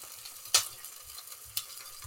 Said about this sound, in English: So now that everything's in the pot, all the potatoes and the peas and the onions, I've added 1.5 litres of water in there and I've put it onto medium heat, cover it up with a lid and let that cook